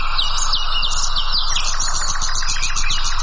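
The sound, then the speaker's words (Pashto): Birds singing outdoors in nature, a dense chorus of rapid, high chirps and repeated tweeting phrases that overlap steadily and loudly throughout, with no voices. “هلته یې په ځانګړي ډول د مرغانو غږونو ته ورپام کېږي، خو داسې ښکاري چې دا اوازونه له طبیعته په کمېدو دي.”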